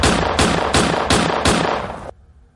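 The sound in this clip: Gunshots in a rapid, evenly spaced series of five loud, sharp reports over about two seconds, each with a short ringing tail, then quiet.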